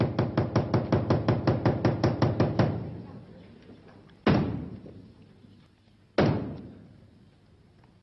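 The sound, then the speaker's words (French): Knocks announcing the start of a theatre play: a rapid, even run of many sharp wooden blows, then slow, heavy single strikes spaced well apart, each ringing out and fading before the next. “Il me semble qu'il est grand temps de frapper les trois coups.”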